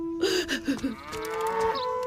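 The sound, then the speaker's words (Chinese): A large yellow ox tied to a wooden post moos: a few short lowing grunts come first, then one longer, sustained moo that is clear and fairly loud on its own. “顺转身走了，拴在木桩上的大黄牛似乎也想追随顺而去。”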